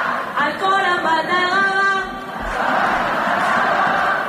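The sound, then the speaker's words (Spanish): A stadium crowd at the Johan Cruyff Stadium on a match day, urged to sing by a player on the microphone: a loud sustained amplified voice at the start gives way to a broad, steady roar of the crowd. “sonido ambiente ahora mismo Johan Cruz, con Alexia que está tomando la palabra. Y está ahora mismo animando a todo el público a que cante el día de partido con ella.”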